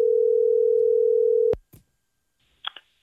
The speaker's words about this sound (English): Ready to call your dad, see what happens here? Yeah, let's do this. All right. Let's dial him up.